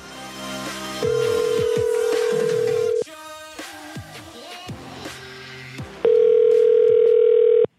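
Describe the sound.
Telephone tone heard while calling someone back: a loud, steady, low electronic tone holds for about two seconds, a stretch of quieter mixed beeps and electronic noises follows, then the steady tone returns loudly until the end.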